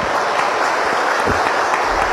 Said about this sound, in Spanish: fuertes los aplausos para ella